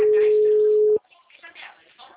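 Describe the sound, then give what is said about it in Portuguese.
Telephone busy tone after a dropped call: one loud, steady, mid-pitched beep holds for about a second and then cuts off abruptly, followed by a person talking. “caiu a ligação. Caiu a ligação aqui pra mim”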